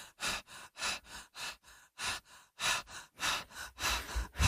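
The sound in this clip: Rapid, heavy breathing by a person: a quick, regular run of many forceful, breathy in-and-out pulses, moderately loud and unbroken by talk.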